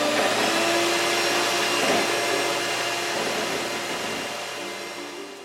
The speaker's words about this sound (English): Okay, yeah, I have one of these. I know what this is. This is a stand mixer.